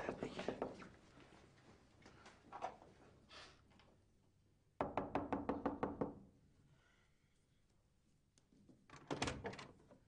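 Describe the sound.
Knuckles rapping on a house door in several bursts of quick, sharp knocks, one long run of evenly spaced raps in the middle, separated by quieter stretches.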